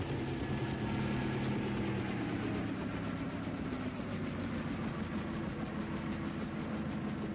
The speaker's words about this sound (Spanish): El moderno aparato volador desciende lenta y verticalmente, justo sobre la cubierta del barco en la sección de popa. Sus grandes aspas lanzan fuertemente el viento contra los marineros sorprendidos.